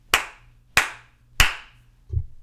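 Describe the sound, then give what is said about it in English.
Three sharp hand claps in an untreated room, recorded through a Mackie EleMent EM-USB microphone. Each clap is evenly spaced and leaves a short decaying tail, followed by a duller low thud. “And here is how the microphone sounds in a completely untreated room.”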